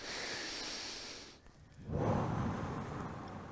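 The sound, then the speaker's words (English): A breath drawn in through the nose and let out through the mouth during an exercise with arm movements. A soft, airy inhale is followed by a brief pause, then a fuller, breathier exhale that trails off gradually. “So in through the nose and ah, out through the mouth.”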